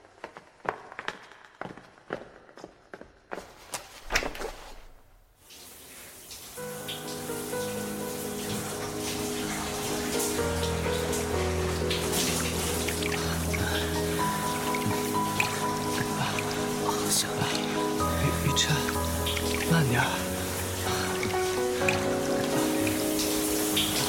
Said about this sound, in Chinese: 我去洗澡了